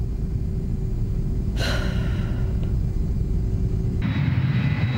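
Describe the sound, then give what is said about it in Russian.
An airplane flies above a thick layer of clouds, giving a steady, loud, low engine drone that runs unbroken throughout. A brief hissing burst rises partway through. “Самолет летит над плотным слоем облаков.”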